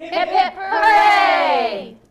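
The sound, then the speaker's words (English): A group of voices shouts a 'hip hip hooray' cheer, a short call followed by a long, loud, drawn-out 'hooray' that slowly fades. “Let's do a hip hip hooray.”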